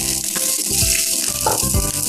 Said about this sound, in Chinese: 把花甲倒入锅中